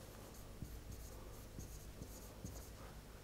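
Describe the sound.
Faint scratching strokes of writing as an equation for a market price is written out, a soft, continuous scrape broken by a few light taps.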